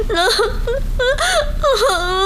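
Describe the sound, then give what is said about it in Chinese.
A woman wails and sobs loudly in several drawn-out, high, moaning cries whose pitch rises and falls, each burst breaking off before the next begins. “我求求你，我求求你别哭行不行啊？咱有话好好说好不好？求求你别哭，不哭了，不哭了啊！”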